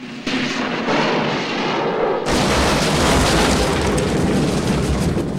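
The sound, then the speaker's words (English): A fiery burst as the DeLorean time machine vanishes in Back to the Future. A rushing roar starts, then swells into a louder, full-band blast that keeps roaring to the end. “The DeLorean disappears in a ball of fire, leaving two burning lines in the air.”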